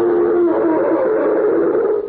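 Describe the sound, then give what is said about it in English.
A roar sound effect comes through as a sustained, low-pitched howling drone that holds loud and even for about two seconds. “Say, let's try this roar again and see if it works.”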